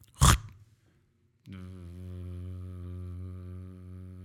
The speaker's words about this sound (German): Was ist es denn? Es ist ein Rasenmäher.